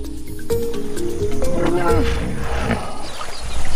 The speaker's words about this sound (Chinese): 河马会发出各种声音交流，这种刺耳的咆哮十分响亮，几千米外都能听得到。